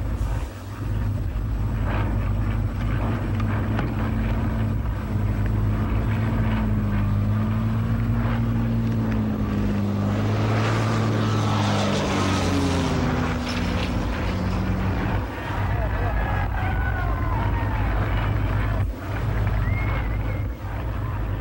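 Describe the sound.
An airplane with its right landing gear not down circles the field and lands, its engine a loud, steady droning hum that holds throughout, with the tone wavering and bending in pitch midway.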